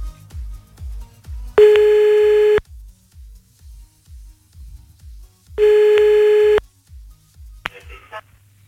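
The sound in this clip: Ringback tone of an outgoing telephone call: two long, steady, evenly pitched rings separated by a pause, over a low rhythmic music bed, followed by a brief higher click-like sound.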